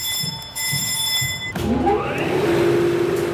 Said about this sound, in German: Es rumpelt, es klackert, Zahnräder greifen ineinander. Langsam setzt sich Walze für Walze in Bewegung.